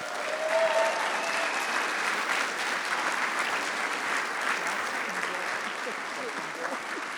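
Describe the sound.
Church audience applauding to welcome a guest speaker at a morning gathering: steady, full clapping from many hands fills the whole seven seconds, easing slightly toward the end.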